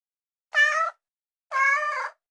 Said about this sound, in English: Cat.